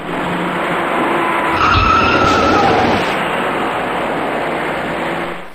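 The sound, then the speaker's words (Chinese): Dense road traffic roar as a white car rear-ends a braking car in a three-car collision on a city road. A brief low thump rises out of the steady rushing tire and engine noise, with no voices. “从后方快速开来的一辆白色小客猛然撞上了刚刚减速的前车，而被撞的前车又顶上了行驶在前面的另一辆小客。”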